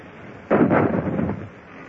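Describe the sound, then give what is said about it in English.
A ship's cannon fires into another ship's rigging during a naval battle, one deep boom with a sudden onset and a rumbling decay that fades over about a second. “Gun layers, change point of aim. Fire into our rigging. Ready? Fire!”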